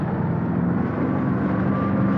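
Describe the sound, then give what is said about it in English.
A steady, heavy engine rumble from the Overlander, a large automated vehicle on big wobbling tyres in Terrahawks, drones on evenly throughout without breaks or voices. “So there is a driver. This is a different colour. Oh, God, I'm really not keeping up at all, am I, you see? There's the Overlander on its automated way.”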